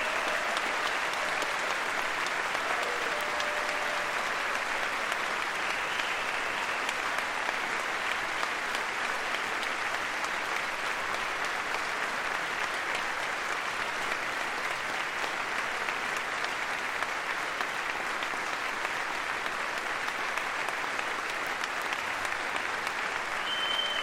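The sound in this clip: Audience applause after a speech, the cabinet and meeting participants clapping together in a steady, even wash of many hands that holds at a fairly soft level for the whole stretch.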